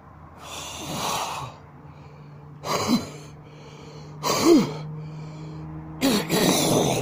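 Throat clearing of thick phlegm: four harsh, rasping bursts separated by short pauses, each a gritty, snorting hawk with a guttural edge. A faint low hum runs underneath.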